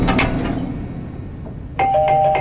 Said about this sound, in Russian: Через минуту опять звонок.